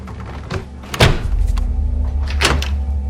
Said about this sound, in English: He gazes outside, then pushes the door shut, peering into the darkness outside through the glass of the door as he closes it.